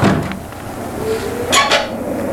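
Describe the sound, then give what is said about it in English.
A lid being pried off an oblong box, heard as scraping and knocking with two sharp clinking bursts near the end over a steady low rumble, with no talking. “And now he's at it again, taking the lid off that oblong box.”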